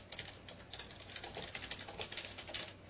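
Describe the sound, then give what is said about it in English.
Faint typing on a computer keyboard while a connection name is entered into a program: many quick, uneven key clicks run in a steady patter, without voices. “I'll type in 1.3 gigahertz Linux server.”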